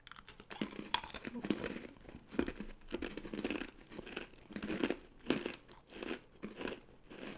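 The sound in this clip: Crunchy chewing of a dry, hard vanilla ring-shaped biscuit, with many crisp bites and grinding crunches in an uneven rhythm that continues steadily for several seconds.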